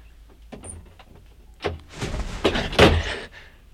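A door is opened just a small way, with a soft thump followed by a longer, uneven scraping and rustling movement, fairly faint and with no voices.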